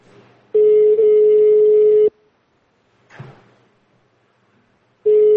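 Ringing tone on an outgoing telephone call: a steady buzzing tone lasts about a second and a half, then a long gap with one faint brief noise, and the tone begins again at the end.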